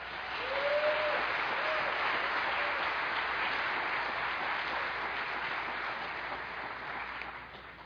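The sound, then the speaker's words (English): Audience applause in a church welcomes a pastor: dense, steady clapping from a crowd continues for about eight seconds and eases slightly toward the end. “Please give a warm welcome to Pastor Ruben Vasquez.”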